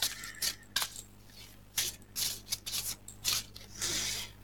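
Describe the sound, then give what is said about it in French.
Cards being drawn from an oracle deck: many quick rustles, slaps and scrapes of card stock in an uneven rhythm, with no talking. “juste pour vous, ce soir, ben, je vais déjà tirer une première carte, comme ça. On va voir ce qui va sortir.”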